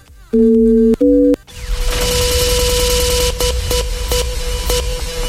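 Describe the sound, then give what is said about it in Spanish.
Telephone keypad dialing tones: two steady, dual-pitched electronic beeps in quick succession, followed by a loud, dense noisy wash. “¿lista para marcar 929, mi amor?”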